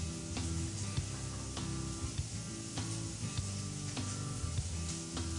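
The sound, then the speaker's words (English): Heavy cream sizzling as it is poured into a pan that is only warm, starting a cream wine sauce. A steady hiss runs throughout, with scattered small ticks and clicks. “Now, for the sauce, we're going to add 1 cup of heavy cream.”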